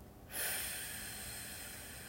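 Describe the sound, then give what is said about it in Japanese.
A slow exhaling breath, a soft, steady airy hiss that starts after a brief moment and carries on evenly to the end, faint and without talk. “はい、ではゆっくり吐きます”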